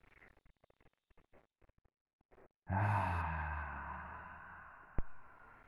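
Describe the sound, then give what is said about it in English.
A big cleansing breath is released through the mouth as one long, loud, breathy whoosh lasting a few seconds after a near-silent start with faint small clicks. “Now let's take a three big cleansing, releasing through the mouth breaths together. Big inhale. Let something out. Two more like this.”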